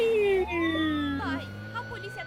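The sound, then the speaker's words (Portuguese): Fire truck siren wailing in steady rising and falling tones, with a voice over it. “Ambulância? Oh, meu Deus. Um carro de bombeiro.”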